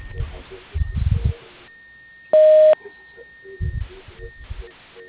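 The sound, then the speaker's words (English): A voicemail beep on a pharmacy answering line: one steady, clear tone lasting under half a second, set between stretches of quieter, muffled line noise. “Please leave your name and prescription number at the sound of the tone.”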